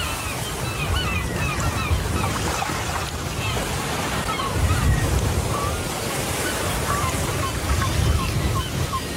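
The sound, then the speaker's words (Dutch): Surf breaks along a shore as a steady, broad roar that swells now and then, while faint high seagull screeches come through in scattered bursts above it. “Het geluid van je jeugd. Ja, precies. Branding en krijzende meeuwen.”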